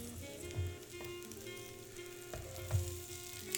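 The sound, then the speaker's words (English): Egg and bacon fry on an open panini press with a steady, crackling sizzle, broken by a couple of soft knocks. “I don't think you can put the egg on the panini press with anything else”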